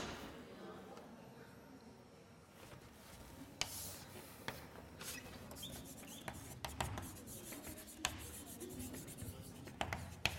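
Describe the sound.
Faint scratchy strokes of writing on a board come in intermittent rubbing bursts, with a few sharper taps and clicks scattered among the quiet scraping.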